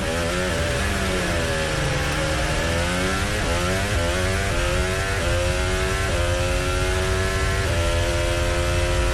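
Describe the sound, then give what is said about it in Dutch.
A Formula 1 car's engine screams in onboard sound during 2026 Monaco Grand Prix qualifying, heading toward the Loews hairpin. The loud, continuous high-pitched wail dips and climbs again, with several gear changes. “Onbordgeluid van Kimi Antonelli richting de Leus Herpin.”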